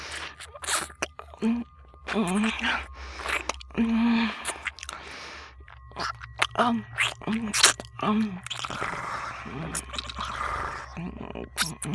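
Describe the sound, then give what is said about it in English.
Biting and chewing on salty round balls, with wet crunching and smacking mouth sounds that come in irregular bursts, mixed with murmured vocal sounds. “these balls, God, I just simply have to taste them.”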